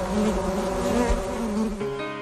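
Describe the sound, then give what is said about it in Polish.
Honeybees buzz around their hives, each colony holding some 30 to 40 thousand bees. The sound is a dense, continuous drone with a low hum, steady throughout and without pauses. “W każdym takim ulu przebywa rodzina złożona z około 30-40 tysięcy pszczół.”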